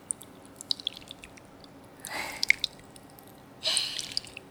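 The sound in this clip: Liquid is stirred round and round, making soft, faint swishing surges in two short bursts. Scattered tiny drip-like clicks fall between them.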